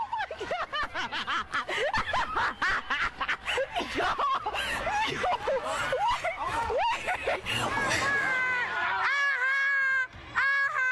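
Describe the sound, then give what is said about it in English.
Crowd mayhem during looting in Philadelphia: many overlapping voices shout, whoop and cry out in a chaotic, continuous din. Shrill, squealing calls stand out toward the end. “Now that's the sound of a bunch of people,”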